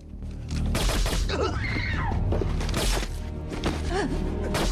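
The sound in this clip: Gunfire during a film scene of soldiers storming a village house held by a guerrilla rebel: several sharp, heavy bursts cut through a dense, loud wash of action sound.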